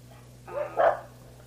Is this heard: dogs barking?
yes